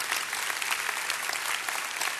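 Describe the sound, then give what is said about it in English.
An audience claps in a worship center: dense, steady applause with many overlapping hand claps holding an even loudness throughout, with no speech. “We're clapping for God's activity in your life. This is his doing.”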